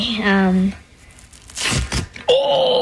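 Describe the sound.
A short strip of tape is ripped off by a child picking Powerball numbers, a quick raspy tear set between voices talking before and after it.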